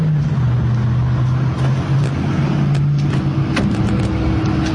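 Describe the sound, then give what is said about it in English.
Steady cabin hum and road noise from a Waymo driverless robotaxi as the ride starts, a constant low drone that stays even and loud throughout. “Time for me to take my driverless ride to run my errand.”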